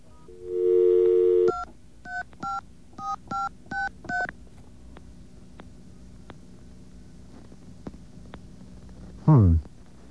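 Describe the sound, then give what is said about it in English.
Telephone keypad DTMF tones: a steady tone, then a quick run of short two-pitch beeps as digits are keyed in, followed by near-silence and a brief falling tone near the end. “Dial again. All right, let's try entering the full number that we just dialed.”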